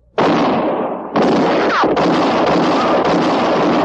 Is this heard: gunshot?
yes